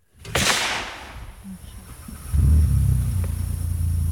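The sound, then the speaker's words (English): A UTV engine starting up during a deer hunt: a sudden low rumble that settles into a steady, even idle, after a sharp crack and a quieter stretch earlier on. “He starts the UTV back up, and we move on.”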